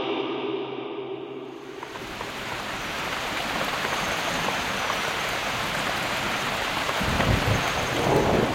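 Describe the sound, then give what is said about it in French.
Rain pours down steadily in a tropical forest, a dense, loud hiss that carries on without a break. Low, deep rumbling joins in toward the end. “Vous entendez, il pleut, nous sommes dans une forêt tropicale.”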